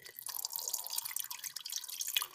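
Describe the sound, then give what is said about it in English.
Water drips in a quiet, irregular stream of small, faint, bright plinks, alone with no voices. “Water. It was water.”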